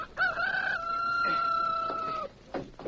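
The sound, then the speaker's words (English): A rooster crows once in a single loud, sustained call lasting about two seconds, with a brief rising onset and a steady held tone, heard on its own without voices. “It's my rooster! I hear him crowing!”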